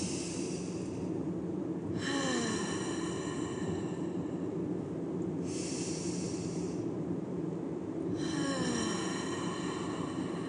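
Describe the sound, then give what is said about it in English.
Slow deep breaths taken together, a few long airy inhales and exhales rising and fading in turn over a steady low background hum. “So let's take 3 deep breaths together.”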